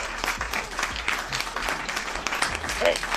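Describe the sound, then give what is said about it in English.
Clapping in a dense, continuous patter that runs steadily through the whole stretch without a clear start or stop. “That's me clapping.”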